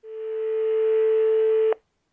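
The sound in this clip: A single steady telephone tone sounds while a call is placed. It is one continuous note that swells quickly at the start, holds evenly, then cuts off abruptly.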